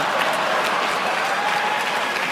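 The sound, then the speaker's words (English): Lukewarm applause from an audience at USC: a steady, even patter of many hands clapping at moderate level, holding without swells or breaks for the whole stretch, no talk on top. “You're gonna get lukewarm applause at USC for some of the kids here.”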